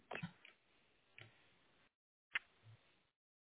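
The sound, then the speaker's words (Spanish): Clicking on a web page link: a few faint, sharp ticks spaced apart, with near silence between them. “Okay, si le estoy dando clic a donde dice call us today”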